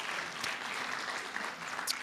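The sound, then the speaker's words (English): Church audience clapping during a Sunday morning service, an even, soft patter of many hands that holds steady throughout and stays fairly faint. “So can you give yourself a round of applause this morning? Come on.”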